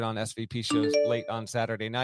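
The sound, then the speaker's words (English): A computer alert chime rings out briefly under a man's ongoing talk, a clear bell-like ding that fades quickly. “By the way, that noise you heard is disappearing forever. That is a noise I cannot stop on this computer.”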